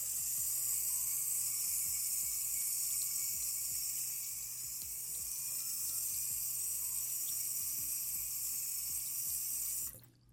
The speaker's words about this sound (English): Okay, so now that the soap is in there, I'm going to rinse it out.